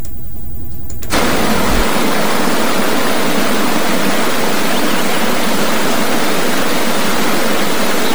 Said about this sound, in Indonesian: memandang keindahan alam sembari menikmati aliran air yang mengalir sangatlah menyejukkan hati dan tentu memanjakan mata.